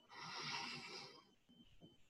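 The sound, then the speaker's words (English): A person takes one deep breath in, a long breathy inhale of about a second, followed by a few quieter, softer breath sounds. “Inhale.”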